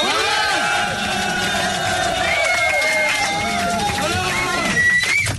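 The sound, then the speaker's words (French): An audience gives a standing ovation to a performer at a live show, a loud, sustained roar of cheering, whooping and shouting voices that runs throughout. “Peut-être mettre debout pour les saluer, peut-être pour la standing ovation quand même, pour Alain de Brest”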